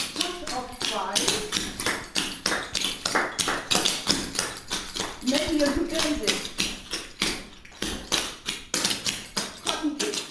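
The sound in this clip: Clog-dancing shoes tap in a room, a rapid, steady stream of rhythmic clicking beats, with voices talking over them.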